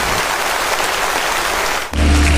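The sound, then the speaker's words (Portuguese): Congregation applauding in church after a call to clap for the name of Jesus. The clapping is a dense, rain-like patter that stops abruptly near the end, giving way to a steady low hum. “Em nome de Jesus, aplauda aí o nome de Jesus.”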